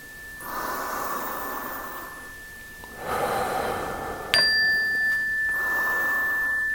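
Slow, deep breaths in and out during a guided breathing exercise, a few long airy swells of even loudness, with a faint steady high tone running underneath.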